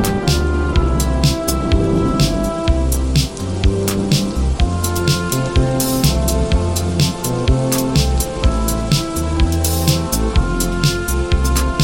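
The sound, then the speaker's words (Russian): Heavy rain pours down in a dense, steady hiss that fills the whole clip, mixed with music carrying a regular percussive beat and low bass notes. “Ливень закончится вскоре”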